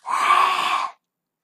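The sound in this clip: A single forceful, breathy exhale, as in the lion pose of a pregnancy yoga practice, lasts just under a second and carries a rough, hissing edge before stopping abruptly into silence.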